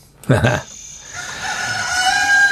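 A rooster crows in a loud, drawn-out, strained call with a bright harmonic tone, opening with a short harsh burst.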